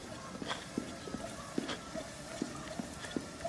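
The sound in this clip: Footsteps jogging on a treadmill make a steady, even run of thudding footfalls, many in quick succession at a moderate level, with no voices.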